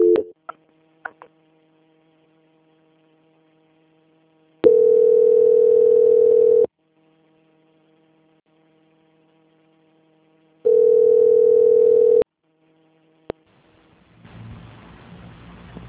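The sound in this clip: Telephone tone during a call transfer: two long, steady low tones separated by a quiet gap, with brief clicks at the start and a rougher noise near the end.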